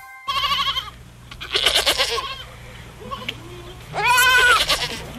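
Bleating from a white goat with a newborn kid: a few loud, wavering, nasal bleats separated by short pauses, over a low steady hum.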